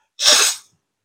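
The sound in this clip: A single sharp sneeze from someone suffering allergies bursts out loudly and breathily, then cuts off, with silence before and after.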